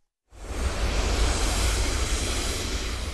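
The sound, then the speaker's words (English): A huge natural gas flare burning at an oil well in western North Dakota, with a bright orange flame 15 to 20 feet high, gives a loud broad roar. It starts abruptly and holds steady without a break. “and that sound you hear in the background, that is a huge flame, bright orange, about 15 to 20 feet high.”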